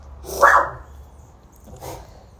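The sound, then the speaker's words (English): Puppies bark twice, the first bark loud and the second fainter, over a low steady background. “the puppies are barking. That means I gotta go.”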